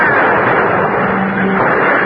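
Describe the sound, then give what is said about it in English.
Rifles return fire in a staged battle sound effect from a radio drama, a dense, loud, continuous roar of gunfire with no separate single shots standing out. “All right, ready now? Return fire! Fire!”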